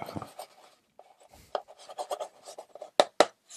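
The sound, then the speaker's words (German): A marker squeaks and rubs across a whiteboard in quiet, scratchy strokes of uneven length, ending with two sharper taps. “Ich muss das aufs Whiteboard schreiben jetzt hier.”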